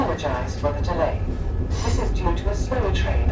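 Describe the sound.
Rumbling interior of a moving London Overground train, a loud, steady low roar running through the whole clip with muffled voices faintly mixed in.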